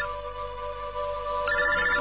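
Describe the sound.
A telephone ringing with a steady electronic ringtone; about halfway through a higher, brighter tone joins, and the ring grows louder, with no voices.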